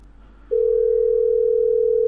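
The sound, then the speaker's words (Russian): A telephone dial tone sounds while a caller rings their own number: after a half-second of faint hiss, one steady, loud, unbroken tone at a single pitch holds to the end, with no voices. “Так, это я на свой номер набираю.”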